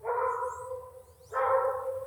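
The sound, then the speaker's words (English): Dogs barking outdoors while a bird is watched: two drawn-out, harmonic barking calls, the first easing off before a second strong call near the end, with no talk. “Those dogs might distract it. Yeah, gonna pay attention to the dogs now more.”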